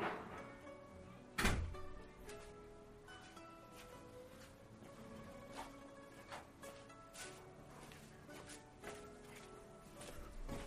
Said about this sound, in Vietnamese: bên ngoài đang ồn quá, mình ra đóng cửa lại.